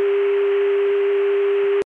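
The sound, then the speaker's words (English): Dial tone on a CCSA telephone network: one steady, unbroken, loud tone that holds constant pitch and then cuts off abruptly just before the end. “This is 288. This is the CCSA dial tone.”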